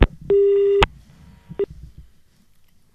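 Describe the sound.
A phone line cuts off into a busy tone: a click, one longer steady beep, another click, then a second short beep, with quiet background between.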